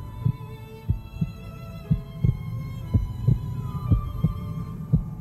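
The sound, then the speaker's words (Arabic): A heartbeat thumps in a steady, low rhythm over a faint sustained hum: the pounding heart of a frightened person in an elevator. Many soft, regular beats repeat throughout. “معقول دي دقات قلبي انا؟”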